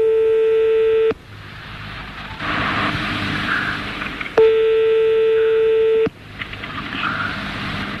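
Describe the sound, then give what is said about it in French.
Telephone dialing tones as a call is placed for a cash prize phone-in game: two long, steady electronic tones, each lasting about a second or more, separated by a stretch of hissing line noise. “On y va, on appelle le 12.”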